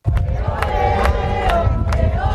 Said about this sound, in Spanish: en plena ruta del Papa Móvil, donde miles de personas están esperando para ver a León XIV